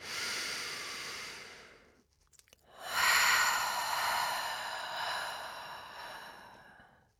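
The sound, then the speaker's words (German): A person breathing out during a relaxation breathing exercise, with two long, airy breaths separated by a brief pause, the second louder and slowly fading. “Und sag dir bitte beim nächsten Ausatmen, dass du wirklich alle Verkrampfungen loslässt mit der Luft, die rauskommt.”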